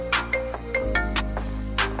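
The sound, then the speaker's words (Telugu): A phone lying on a table rings with a melodic ringtone: a run of bright, tonal notes rising and falling in a short tune over a steady low drone. “ఇంతలో తను table మీద పెట్టిన phone ring.”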